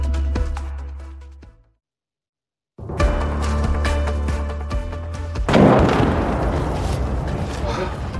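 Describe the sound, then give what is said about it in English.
Intense incoming Russian artillery fire on a front line in Ukraine rumbles in dense, loud bursts, broken by a brief silent gap, then resumes with a heavier blast toward the end. “you can hear the incoming rounds. The incoming rounds from Russian artillery fire are really intensive here.”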